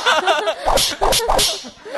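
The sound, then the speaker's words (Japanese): Three sharp whip-crack sound effects burst out in quick succession, bright and loud, following some rougher lower-pitched sounds at the start. “ムチきました。 今ムチ3連発入りましたからね。”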